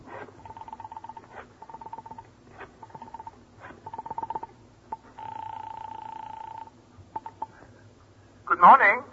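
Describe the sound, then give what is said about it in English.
A telephone being dialed and ringing: sharp clicks between a few short buzzing tones, then a longer steady tone and more clicks, with a brief voice at the very end. “Your thoughts fasten on the tiny bit of hope Bernice gave you yesterday. You quickly reach for the phone.”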